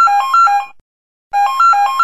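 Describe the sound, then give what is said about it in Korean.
A mobile phone ringtone signalling an incoming call, a bright electronic melody of quickly alternating notes, played in two loud bursts separated by a short silence. “아니래요, 아니래요. 전화랍니다.”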